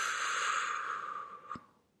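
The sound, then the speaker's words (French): A slow, deliberate exhalation empties the lungs while the lower belly is slightly contracted. It is a long, airy, breathy rush that fades steadily over about a second and a half, ending with a faint click, and no one speaks. “Donc je t'invite à ton rythme à expirer”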